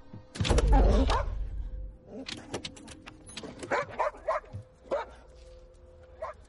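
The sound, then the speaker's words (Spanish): A dog at a car window, with heavy thumping against the glass at the start, then a series of short barks, yips and whimpers. “Un perro golpea la ventanilla.”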